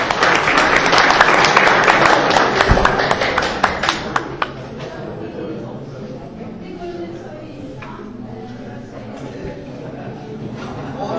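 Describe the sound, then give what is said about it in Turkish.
An audience breaks into applause, a dense burst of clapping that is loud at first and then thins into scattered claps, while voices talk over it. “Alkışlayalım.”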